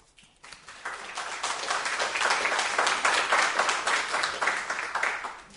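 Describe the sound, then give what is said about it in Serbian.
Audience applause swelling from a near-quiet start into a long, sustained roar of many clapping hands, holding strong through the middle before easing slightly at the close. “Hvala, ima puno ovoga, pa nemojte mi to mnogo pljeskati.”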